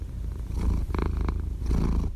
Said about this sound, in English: And if you hear purring, that's my cat Chewy, who is in my lap.